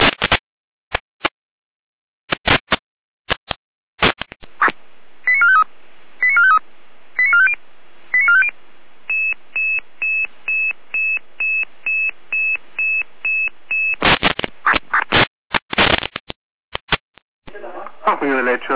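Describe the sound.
Radio alerting tones for a German fire brigade dispatch: sharp crackling bursts, then a few quick tone-sequence chirps, a long run of even, steady beeps, more crackling bursts, and a voice starting briefly at the end.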